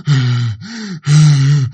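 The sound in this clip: A voice imitates the heavy, angry breathing of a fierce, bloodied ghost with bulging eyes: two loud, rasping, grunting breath cycles, each a long strained exhale followed by a shorter rising intake, with no other sound.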